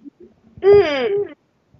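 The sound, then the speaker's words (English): A person's voice imitates a hoot: one sustained, tonal, owl-like call lasting under a second, rich in harmonics, with a few faint short sounds before and after it. “I was just hearing a lot of chirping and ooping coming from you.”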